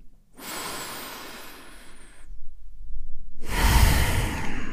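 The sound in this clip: Two long, deep breaths are taken slowly during a calm meditation exercise. The first is a soft, airy breath and the second is fuller and louder, with no talking.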